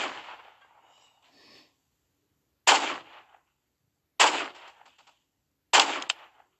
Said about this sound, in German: und der campt da oben und schießt von da oben. Den muss ich abschießen.